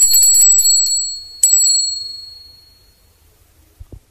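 A small hand bell rings: a bright, high tinkling at the start, then one sharp ding that rings out and slowly fades over a couple of seconds.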